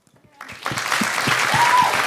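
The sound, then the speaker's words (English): Applause from an audience after a poem reading rises out of near silence into a steady, loud patter of many hands, with a voice speaking over it. “Oh, you don't have to clap.”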